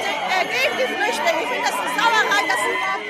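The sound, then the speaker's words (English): Demonstrators gathered outside Berlin's refugee reception centre create a steady, loud wash of many overlapping voices talking and calling out at once. “Outside Berlin's refugee reception centre, a demonstration's underway.”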